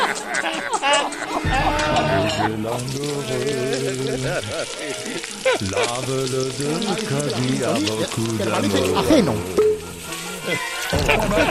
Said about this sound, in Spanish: Está poniendo un arroz o algo. ¿Qué estabas poniendo al horno o al fuego?